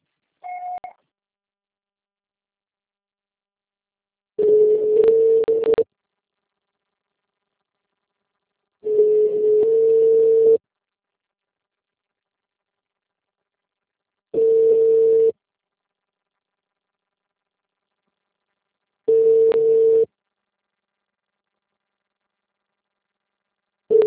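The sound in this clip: Telephone network tones on a Brazilian line after a failed call: a short, higher beep, then five long, steady, lower tones about five seconds apart, with silence between them.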